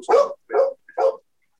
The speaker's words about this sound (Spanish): A ver, deja, atiendo a las perras